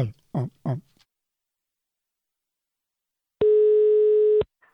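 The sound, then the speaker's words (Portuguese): A steady telephone dial tone sounds before a call is placed. It is a single continuous buzzing tone lasting about a second, loud and alone, after a few short bursts of sound and a quiet gap. “E agora eu vou ligar.”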